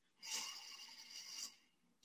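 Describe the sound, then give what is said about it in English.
A single soft breath drawn in during a calm mindfulness exercise, a faint airy hiss lasting about a second that swells and fades, alone in near silence. “All right, so just taking a breath.”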